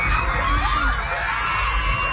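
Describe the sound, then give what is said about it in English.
Children scream and shout as they huddle outside their school on the island of Mindanao during a 7.8 magnitude earthquake, a loud continuous mass of high, overlapping cries over a low rumble. “Children screaming as they huddle outside their school on the island of Mindanao, the tremor shaking them from side to side.”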